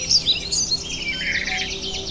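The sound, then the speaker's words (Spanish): Birds whistle and sing in the forest of Aguaragüe park: many high chirps and tweets overlap with no pause, at moderate loudness throughout. “Aquí el eco del Huaraue, los sonidos que hay son los silbidos de los pajaritos, los cantidos de cada ave que uno escucha, ¿no?”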